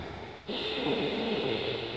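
Ujjayi breathing, air drawn slowly through a constricted back of the throat rather than the nostrils, heard as a soft, steady hissing rush that starts abruptly and holds evenly, fairly faint.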